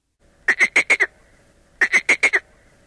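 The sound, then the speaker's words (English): Frogs croak in two quick bursts of five calls each, with a short pause between them. The calls are clear, bright and nasal, almost duck-like, on an even rhythm. “Look, three frogs.”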